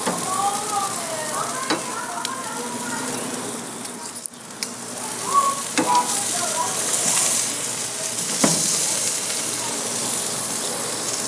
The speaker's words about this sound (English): I hear that steak going.